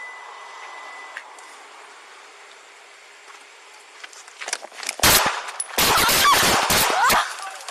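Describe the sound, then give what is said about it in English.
Gunshots fired during a police traffic stop: after a stretch of quieter background, a dense cluster of sharp, loud, rapid cracks breaks out and keeps going for a few seconds. “Officer needs help. Shots fired. Needs help. Shots fired.”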